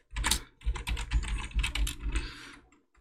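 Typing notes on a computer keyboard: a quick, irregular run of many keystrokes with clustered bursts of clicks, moderately quiet and without talk.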